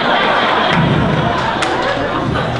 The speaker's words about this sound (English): Yeah, that applause tells you everything.